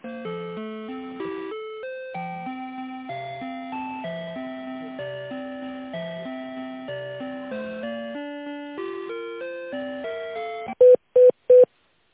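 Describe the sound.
Electronic telephone tones play while an office call is transferred: a steady run of synthetic notes stepping between pitches, then three short, sharp beeps at the end.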